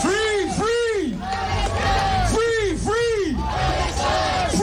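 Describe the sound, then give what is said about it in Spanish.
A protest crowd in the streets of Vienna chants loudly in unison, repeating a rhythmic phrase over and over above a constant roar of many voices. “las calles de Viena suenan así.”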